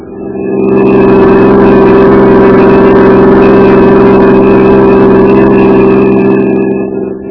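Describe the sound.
Steady engine drone of a car being driven, a loud, even low hum that fades in, holds for about six seconds without change, and eases off at the end, with no voices.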